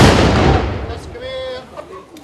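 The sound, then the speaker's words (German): A pioneer battalion fires a ceremonial gun salute to open an exhibition: one loud, booming blast at the very start that decays over about a second. A faint voice follows. “Sozusagen im wahrsten Sinne des Wortes den Startschuss für die Eröffnung der Ausstellung gaben die Mitglieder des Mansfelder Pionierbataillons. Gebt Feuer!”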